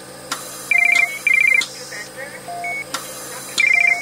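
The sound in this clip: An incoming call's electronic ringtone, with three bursts of rapid, high trilling beeps and a lower tone between them, alongside softer electronic tones.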